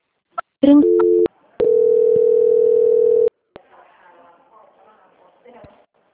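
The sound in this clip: Telephone line tones while a dropped call is being transferred: a click, a short two-pitch beep, then one long steady tone of about two seconds, followed by a few clicks and faint voices.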